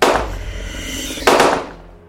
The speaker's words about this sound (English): Keep shooting it.